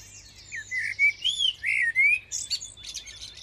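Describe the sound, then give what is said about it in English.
Blackbird song recorded in a park and played along a hospital's main corridor: a run of bright whistled phrases and quick chirps, rising and falling, over a faint low hum. “you hear the sound of a blackbird going up the main corridor.”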